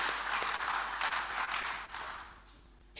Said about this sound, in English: we can put our hands together to welcome him.